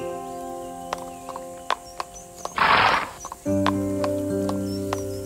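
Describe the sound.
A horse's hooves clip-clopping in sparse knocks, with a brief breathy whinny in the middle, over sustained musical tones, as a family sets off on horseback toward Jericho in a fairy tale.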